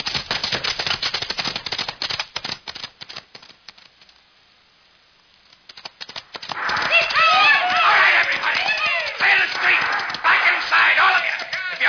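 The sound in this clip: Galloping horses carry masked riders into town for a bank robbery: dense, rapid hoofbeats, a brief quieter lull, then a louder and busier stretch of hooves and commotion.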